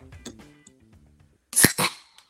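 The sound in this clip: An Ultra beer can being cracked open: a sharp crack and hissing fizz in two quick bursts after faint low murmuring.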